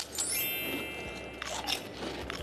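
Crisp bites into crunchy Thai rice crackers, tom yum and pandan flavour: a few short, brittle crunches come in quick bursts over a steady background.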